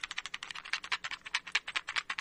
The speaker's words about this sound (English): I want to do the shake test, and I want you to tell me which one is the high quality tape and which one is the cheesy cheap tape.